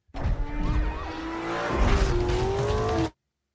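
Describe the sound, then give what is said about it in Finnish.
A sporty car races in a driving video game, its engine roaring steadily with squealing tires throughout before cutting off abruptly at the end. “Tämä on ajopeli.”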